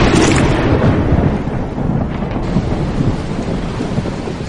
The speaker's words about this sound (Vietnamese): Mưa vẫn như trút nước, dấp sáng sấm rền bất tận